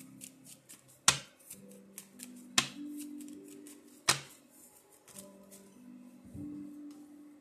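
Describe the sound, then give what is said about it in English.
Cards dropping, three sharp, crisp slaps spaced about a second and a half apart, set against quieter rustling handling noise in between. “I thought some cards had dropped.”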